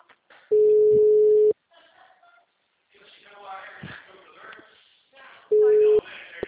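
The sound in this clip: Ringback tone of a phone call that rings unanswered: two steady mid-pitched tone bursts, each about a second long and separated by a few seconds, with people talking in the gap between them.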